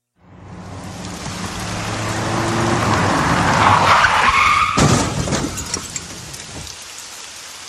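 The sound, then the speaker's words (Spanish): A vehicle brakes hard and skids into a collision after a pickup truck comes on at high speed. A rising hiss of sliding tyres builds over several seconds, then a sharp crash hits before the noise thins away. “El otro clavó los frenos y resbaló contra nosotros, chocando tan fuerte que nos tiró de nuevo hacia la ruta.”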